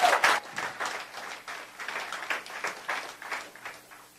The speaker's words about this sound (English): Let's give it up for Elder Jarrett this morning.